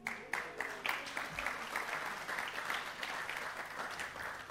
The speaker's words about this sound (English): I think you got a woo there.